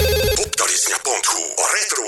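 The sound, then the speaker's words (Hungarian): A radio studio's contact jingle opens with bright, telephone-like ringing tones, then moves into loud, melodic, voice-like phrases, all within about two seconds. “Úgyhogy jön akkor a szokásos stúdió elérhetőségi szignál”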